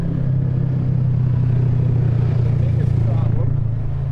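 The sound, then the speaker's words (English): A UTV (utility terrain vehicle) drives by on a road with a steady, low engine drone and light clatter layered over it, holding loud throughout. “there'd be 3 or 4 or 5 of those UTVs would come by, and I mean, you could hear the difference between a normal vehicle and the UTVs. There's one there.”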